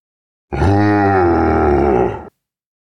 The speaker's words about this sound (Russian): Я услышал рёв и вспомнил, что все еще сражаюсь